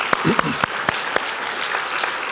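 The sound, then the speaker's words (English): Congregation clapping hands during a church sermon: a handful of sharp, separate claps at the start, then a steady wash of applause-like noise. “Yeah, let's clap our hands here.”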